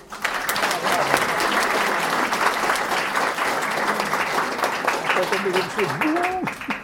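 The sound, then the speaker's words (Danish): Audience applause at a festival debate event: dense, steady clapping that holds at an even level throughout, with a voice briefly heard over it near the end. “Og jeg vil ikke sige så meget mere end give dem en stor hånd.”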